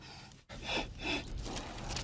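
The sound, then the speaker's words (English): A deep, measured breath drawn in, heard as a noisy, airy rush that swells twice after a brief silent gap, fairly soft and with no talking. “Guys, just breathe. The key to this is just deep, measured breath. Follow me.”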